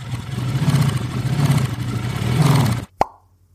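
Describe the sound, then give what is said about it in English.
A motorcycle with a sidecar runs with a low, throbbing engine rumble that swells slightly, then cuts off abruptly. A single sharp pop follows in the quiet. “before the trial goes much further, I crank up the cryptocycle and...”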